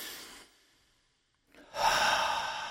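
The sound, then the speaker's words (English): A deep breath: a short, soft inhale, a brief silent pause, then a louder, longer sighing exhale that slowly trails off. “She took a deep breath.”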